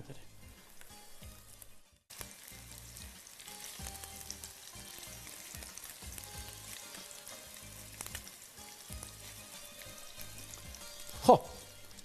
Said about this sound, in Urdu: اب یہ کوفتے سوخت تل رہا ہے